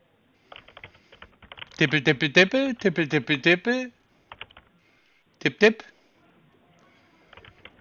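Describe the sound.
Rapid clicking of typing on a computer keyboard, a run of light taps that gives way to a stretch of talking in the middle, then resumes with scattered keystrokes near the end.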